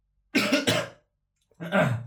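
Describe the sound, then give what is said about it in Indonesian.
Coughing and harsh throat clearing from one person: two rough bursts close together, a pause, then one more burst, with no talk in between. “Batuk gue.”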